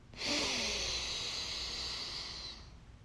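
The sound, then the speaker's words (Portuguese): A single long, deep breath during a guided breathing exercise, a steady airy hiss that swells quickly, holds for about two seconds and then fades, fairly faint and without talking. “Respira profundamente junto comigo aqui, ó, antes de terminar, três vezes.”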